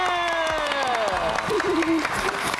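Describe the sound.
Applause and crowd cheering break out at an award ceremony for scholarships and certificates. The clapping is continuous and lively, and voices can be heard over it.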